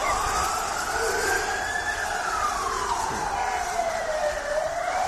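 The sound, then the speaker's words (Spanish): A wailing siren sounds during violent street clashes between Cádiz and Málaga football ultras in Cádiz. One loud tone slowly rises, then sinks, over a constant rough wash of street noise. “Y este es el sonido de lo que decíamos antes, de los enfrentamientos que ha habido hoy en Cádiz entre seguidores ultras del Cádiz y del Málaga.”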